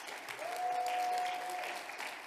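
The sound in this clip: Applause from a church audience welcoming a speaker to the front, steady dense clapping that swells slightly in the middle and continues without pause.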